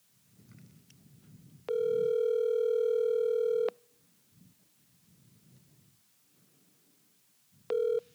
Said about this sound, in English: She doesn't pick up. I'm going to call it one more time. Yeah, I'll call her again.